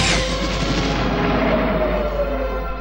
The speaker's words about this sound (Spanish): Un gigantesco meteorito envuelto en fuego se precipita desde el cielo dejando una estela de humo.